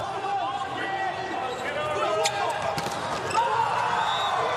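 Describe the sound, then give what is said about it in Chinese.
A volleyball serve is struck during an Italy match, with a few sharp ball hits under continuous commentator speech. “你看直线打得非常直，菲斯滕森的发球，”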